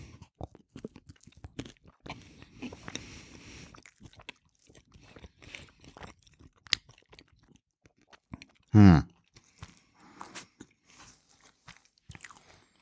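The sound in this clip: Someone chews a piece of bread topped with Kassler roast and mustard: soft, irregular crunchy bites and chewing noises, mostly faint.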